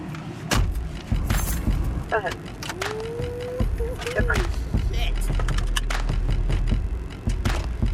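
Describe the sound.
Thumps, clicks and rattles as someone climbs into a Ford Crown Victoria police car modified for police equipment, with a short whining tone midway and a low steady rumble filling the second half.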